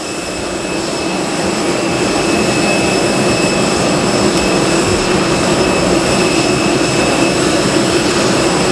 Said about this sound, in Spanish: recogerá de un momento a otro su escalerilla y comenzará a rodar por esa pista para despegar enseguida, en breve.